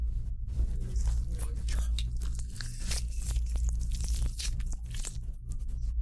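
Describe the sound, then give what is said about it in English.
An orange, a gift from a friend, being peeled open at a hotel: irregular crackling tears and soft, wet squishes as the peel is pulled apart, fairly quiet and continuous over a low background hum. “Remember the oranges that Tony gave us? We finally got to try them. We're currently opening an orange.”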